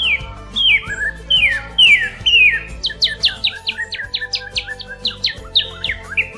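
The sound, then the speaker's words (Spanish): A red-headed songbird sings a loud, flute-like warbling song of many clear whistled notes, mostly quick downward slurs grouped in rapid phrases and repeated throughout. “Su canto, en forma de gorjeos o silbidos, es fuerte y muy agradable y se asemeja a los sonidos que brotan de una flauta. Escúchalo.”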